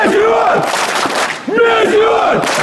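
Football fans cheering loudly in unison, with chanted shouts that rise and fall in two long swells and a brief dip between them.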